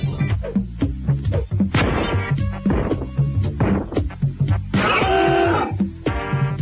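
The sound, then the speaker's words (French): Crashing and smashing from breaking floors and windows in The Mask video game, with loud, dense impact bursts over a busy game soundtrack. “Dès vos premiers pas dans le jeu, il vous faudra par exemple casser parquets et fenêtres pour vous frayer un chemin.”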